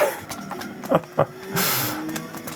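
Rally car sliding through a corner in a slight drift, its engine droning steadily, with a few sharp bursts and a broad rushing noise midway.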